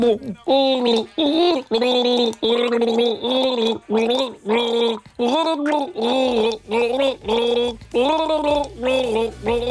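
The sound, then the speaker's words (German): Gargled pop-song melody, a one-hit wonder, sung through water: a loud, bubbling, pitched warble rising and falling in many short phrases with brief gaps, steady in rhythm and heard alone. “Ich habe eben vorgegurgelt, das nächste One-Hit-Wonder. Klingt so.”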